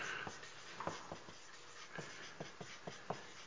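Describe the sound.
Faint strokes of chalk or a marker drawing on a board, many short, separate scratchy swipes at an uneven pace.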